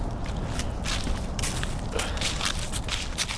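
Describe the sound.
Footsteps of people walking outdoors, many soft steps crunching at a steady pace under a constant wash of background noise.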